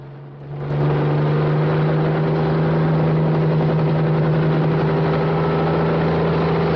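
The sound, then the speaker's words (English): Helicopter engine drone as the aircraft lifts off a concrete landing pad. It swells over the first second into a loud, steady low hum with a constant tone and a broad rushing noise. “Julie waves and blows a kiss as the helicopter lifts off the concrete landing pad.”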